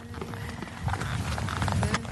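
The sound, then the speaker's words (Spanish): Hooves of a horse trotting a few steps to close up on the horse ahead during a riding session, a quick, irregular clatter over steady background noise, fairly faint. “lo único que hace cuando se distancia un poquito del caballo delante, da dos o tres pasillos a trote para acercarse.”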